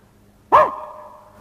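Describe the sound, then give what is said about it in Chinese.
A voice imitates a dog, giving one sharp bark with a bright tone that falls away and fades into a faint tail. “这狗都告诉你了，你听不懂我们狗这路语言。”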